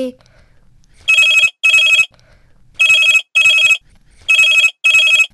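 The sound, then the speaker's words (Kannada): A telephone rings in three double rings, six loud, even bursts in pairs with short gaps, as a call comes in at home in the morning during prayer. “ಯಾರಪ್ಪ ಇದು ಬೆಳಿಗ್ಗೆ ಬೆಳಿಗ್ಗೆ ಕಾಲ್ ಮಾಡ್ತಿದ್ದಾರೆ?”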